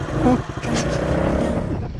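A small motorbike engine revs and pulls away with a steady, buzzy low rumble that holds at an even loudness for about two seconds.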